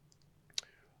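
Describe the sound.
A single sharp computer mouse click while scrolling a web page stands out against a low, steady background hum, with a few fainter ticks before it.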